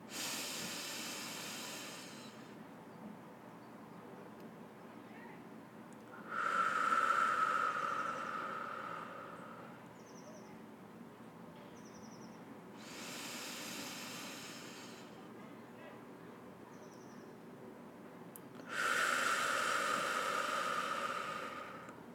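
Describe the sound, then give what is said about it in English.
Slow, deep breathing of a guided breathing exercise, breathing in and holding. Four long, hissing breaths alternate between softer and louder, each followed by a quiet pause while the breath is held. “So I just have to, I can't breathe and count at the same time. So I just have to do the breathing and I'm counting in my head.”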